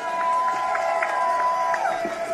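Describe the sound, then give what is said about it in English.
Crowd cheering for a speaker at a political gathering, a sustained wash of whoops and calls with a held whistle-like tone running through it, continuous throughout. “Like you said, please give me a round of applause for coming out here today.”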